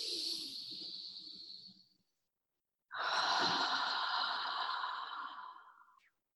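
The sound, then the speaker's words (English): Deep breathing during a guided spiritual meditation: two long, soft, breathy rushes of air, the first about two seconds and the second about three, separated by a brief silence. “Spirit, expand me so big, so that all that are ready come. Deep breath in.”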